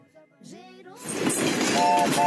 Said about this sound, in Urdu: پٹڑی پر train دوڑتی ہوئی اپنے سفر پر آگے بڑھتی ہوئی جناب, مختلف اسٹیشن سے گزرتی ہوئی.